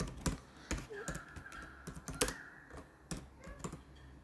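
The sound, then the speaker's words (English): Typing on a computer keyboard while looking something up, with a quick, irregular run of many sharp key clicks at moderate level and no voices. “You can look it up. If you type in Microsoft patent 666.”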